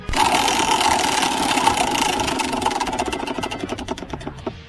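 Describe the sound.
Clicking of a spinning prize wheel during a game: a rapid, dense run of ticks that gradually slows, with the clicks spacing out toward the end.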